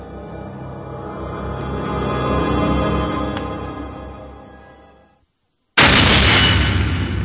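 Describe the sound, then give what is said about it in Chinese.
A car crashing into a concrete roadside wall: a swelling rumble fades to a brief silence, then a sudden loud, harsh crash bursts in and carries on to the end. “车子撞到了路边的水泥墙上”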